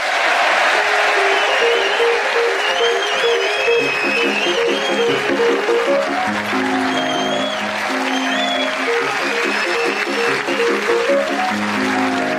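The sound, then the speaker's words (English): Audience cheering and applauding at Theatre Clwyd in Mold, North Wales: loud, dense, continuous clapping and cheers that never let up, with a tuneful musical theme joining underneath partway through. “laughing audience here at Theatre Clwyd in Mould, North Wales, who cheered us on our way.”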